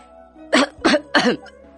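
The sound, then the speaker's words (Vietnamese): Three short, sharp dry coughs come in quick succession, each a harsh, breathy burst, standing alone against near silence. “ho khan nói”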